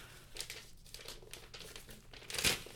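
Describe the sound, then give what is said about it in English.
Wrapping paper crinkling as a taped Christmas gift is unwrapped: quiet, irregular rustles and crackles that end in a sharper, louder crackle. “The ASMR of the unwrapping. ASMR unwrapping edition.”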